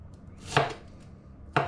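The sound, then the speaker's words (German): A knife cuts a Flammkuchen (tarte flambée) in half with two crisp chops against a board, about a second apart, each short and sharp in a quiet setting. “vom Flammkuchen. So, das. Dann nehmen wir die zweite Hälfte. Und schneiden uns”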